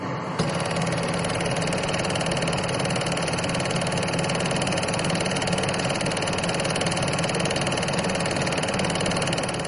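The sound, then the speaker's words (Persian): An old film projector runs with a steady mechanical whir and a fine rapid clatter, an even, continuous hum that holds at the same level throughout. “صدایی که شنیدید متعلق به یک دستگاه قدیمی آپارات بود”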